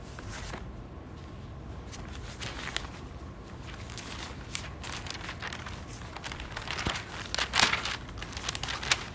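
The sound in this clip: Bible pages being flipped to Romans chapter 6, heard as a steady papery rustling and crinkling of many quick turns that grows somewhat louder and busier toward the end.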